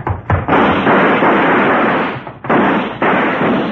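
Gunshots crack out in a western drama gunfight, a few sharp, loud blasts whose echoes blur into a sustained, roaring rumble.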